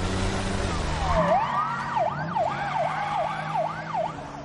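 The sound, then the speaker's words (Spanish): Police car siren wailing during a chase on a highway. The rapid, loud up-and-down wail repeats many times over a steady engine and road rumble. “Un coche de la policía le sigue por una autovía.”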